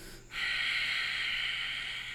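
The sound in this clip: A long, steady exhale through the nose or mouth during a yoga sequence, as the left leg is lowered to the mat. It begins after a brief quiet pause and continues as an even, breathy hiss to the end.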